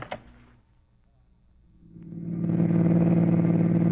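Car engine droning while driving toward Kansas City, rising from near quiet into a loud, steady rumble with a low hum that holds to the end.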